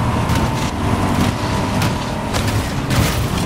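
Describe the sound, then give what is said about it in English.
A car driving, with a constant heavy rumble of engine and road noise and a few soft thuds over the steady drone. “Driving our car.”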